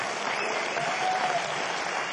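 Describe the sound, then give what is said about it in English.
Audience applause for a bebop jazz band with an alto saxophonist: a smooth, continuous wash of clapping, fairly soft and even throughout, with no voices. “let's have a round, rousing applause, a group, a round of applause for the Sugar Hill Bebop Band.”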